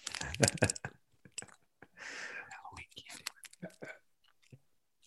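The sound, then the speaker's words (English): ASMR-style eating of a Heath toffee bar brings crisp crunches, chewing and small mouth clicks, mixed with whispered talk. The bites are irregular and fairly quiet. “And Heath is a toffee that it's not even the best toffee in the world, but I have a fondness for it. So yeah. We're going to do a little more ASMR.”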